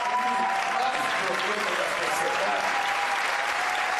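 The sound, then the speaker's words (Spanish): Loud, sustained crowd applause, with dense continuous clapping at a steady level and a voice faintly audible underneath. “no estamos consiguiendo escuchar muy bien ahí por los aplausos.”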